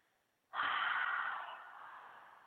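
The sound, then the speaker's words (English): A single deep breath taken during a guided breathing exercise: a soft, airy rush that starts abruptly, holds for a moment and then slowly tapers off, quiet and alone. “Just taking a deep breath. Deep breath, inhale, and then exhale.”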